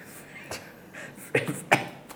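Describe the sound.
A man coughs a few times, clearing something caught in his throat. The short, rough bursts stand out sharply over quiet background hiss.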